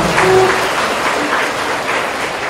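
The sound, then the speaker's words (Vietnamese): An assembly at a Buddhist gathering applauds to welcome a visiting monk who teaches the Dharma: a continuous wash of many hands clapping, fairly loud and steady, easing slightly toward the end. “Đề nghị toàn thể đạo tràng chúng ta cùng vỗ tay hoan nghênh của chúng con.”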